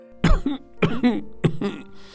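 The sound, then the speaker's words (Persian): Three throaty coughs, each trailing into a voiced rasp, made to catch someone's attention; fairly loud and evenly spaced, with no other talk around them. “آدوک چند سرفه کرد تا حواس مادرم را به خودش جمع کند”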